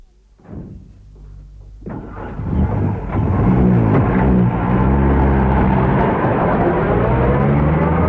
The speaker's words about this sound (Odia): driver, ଗାଡ଼ି ଯେତେ ଜୋରରେ ଚାଲିପାରେ ଚଲାଅ